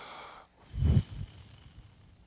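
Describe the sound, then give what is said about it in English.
A group blowing a deep breath out through their mouths during a prayer for healing: a low, breathy rush swells to a peak, then a smaller puff follows before the sound fades to near quiet. “Everybody take a deep breath and blow it with your mouth.”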